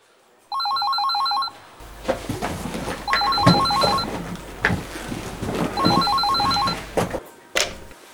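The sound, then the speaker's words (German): A telephone rings three times at the start of a call, each ring a bright, rapidly trilling electronic burst, with steady background noise filling the gaps between rings. “Hören Sie den Beginn eines Telefongesprächs.”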